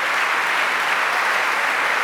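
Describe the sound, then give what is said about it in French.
Concert audience applause follows a jazz sextet's set in Studio 4 at Flagey, at a 50th-anniversary Lundis d'Hortense double concert. It is a dense, loud, unbroken wash of many hands clapping, with no talk. “Voilà, applaudissements pour Nathalie Laurier et ses cartes blanches.”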